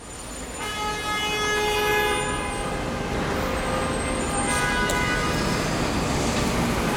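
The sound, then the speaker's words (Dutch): Morning rush-hour traffic on a busy New York street, a steady loud roar of vehicles with sustained, tonal horn blasts layered over it throughout. “Complete chaos. Dit is de ochtendspits op 42nd Street midden in New York.”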